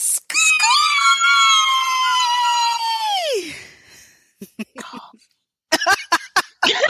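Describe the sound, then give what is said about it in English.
A scream sound effect: one long, loud, high shriek held for about three seconds, its pitch sliding downward as it fades, followed by several short, sharp bursts. “Scream! You can get that subliminal message up in there.”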